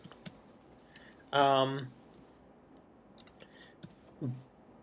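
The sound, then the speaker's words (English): Keyboard typing during a quick unit conversion, soft scattered keystroke clicks with a brief, louder tonal burst partway through, overall faint. “But, sorry, just doing a quick conversion here. And I typed that in wrong.”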